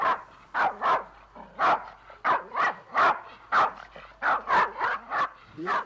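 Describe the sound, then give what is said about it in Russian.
A dog newly bought at a bird market barks in many sharp, evenly spaced bursts, short bow-wow barks repeating in a steady rhythm with a few higher, yelping notes mixed in. “и в доме появилась собака”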